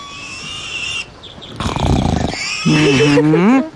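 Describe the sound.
A human voice imitates a wild boar. Brief vocal sounds lead into a rough, snorting grunt, then a wavering, high squeal that climbs and dips in pitch.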